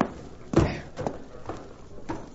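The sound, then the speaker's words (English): Horse hooves clip-clopping faintly in a western drama scene: a few soft, dull thuds at an uneven walking pace, low in level. “watch my horse”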